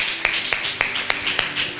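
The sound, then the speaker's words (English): A church audience clapping in a steady, even rhythm, with sharp, fairly loud claps at regular intervals across the short stretch. “Why don't you clap for Jesus?”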